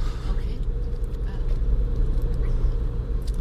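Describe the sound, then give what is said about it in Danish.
Steady low engine and road rumble from a car driving on a road near Aarhus Ø, heard from inside the car as a continuous even drone with no distinct events. “Nu kører vi jo faktisk en lille omvej, fordi vi skal ud og krydse.”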